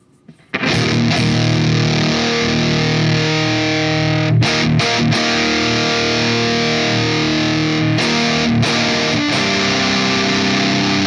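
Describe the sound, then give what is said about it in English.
A heavily distorted tone comes from an effects unit set to its distortion setting, a loud, dense, buzzing sustained sound with a few brief breaks, and no talk over it. “So what we have currently let's start with the distortion.”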